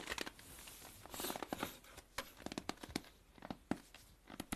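Squeezing a pouch of potato starch produces soft, snow-like crunching: many quick, irregular crackles and squeaks in bursts, fairly faint overall.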